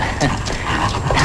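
A dog gives a few short vocal bursts over a dense, noisy background, each brief and moderately loud within about a second.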